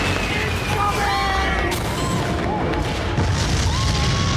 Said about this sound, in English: Because I hear these bombs dropping, and I'm thinking, okay, what the heck is that?